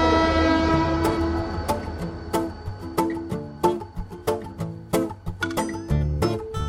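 A train pulling in at a station platform, opening with a sustained horn-like tone that fades under a long run of sharp, rhythmic wheel clacks and metallic rattles.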